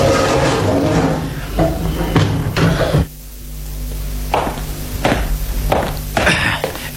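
A prison cell door in the Bastille is opened with several heavy clunks and thuds spaced irregularly, metallic knocks and a solid bang standing out over a steady low rumble.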